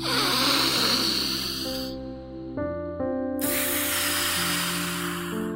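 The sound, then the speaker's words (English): A deep breath in and out during a guided breathing exercise: a long airy inhale, a short pause where soft sustained tones come through, then a long breathy exhale, with no talking. “Let's take three deep breaths.”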